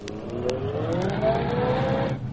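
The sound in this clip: A motor car engine runs with a steady, low, rumbling drone and faint mechanical ticks on top, holding an even level throughout before easing slightly at the end, with no voices heard.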